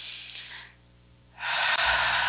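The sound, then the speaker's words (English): Deep breathing during a guided breathing exercise: two airy rushes of breath separated by a quiet pause, the second louder and longer than the first, with no talking. “you can take deep breaths. Another.”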